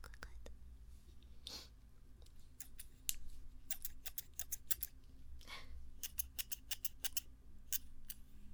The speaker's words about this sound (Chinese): 然后我现在是用两个手，一边一个把手，然后来活动那个剪子，让你们听到声音的感觉好像。